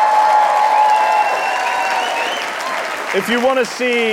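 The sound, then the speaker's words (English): Cheering and applause from a live audience answering a show of support for Bernie Sanders as Democratic nominee, loud at first and easing off as a man's voice starts speaking near the end. “It's a podcast, so make some noise. If you want to see Bernie Sanders as the next Democratic presidential nominee, make some noise.”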